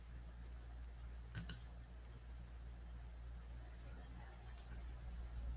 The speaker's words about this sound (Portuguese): Tô clicando, não tá abrindo.